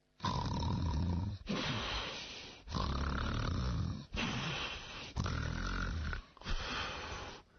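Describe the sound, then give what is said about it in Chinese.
A voice imitates a young woman's loud, thunderous snoring: six long, rasping snores in a steady rhythm, each with a coarse, growling texture and a brief break between them. “你说人家老爷们睡觉打呼噜，这么大个姑娘睡觉鼾声如雷。”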